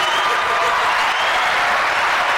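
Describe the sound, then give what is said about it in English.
Audience applause: dense, steady clapping fills the whole clip at an even loudness, with no pauses or voices. “Let's give you another applause for that.”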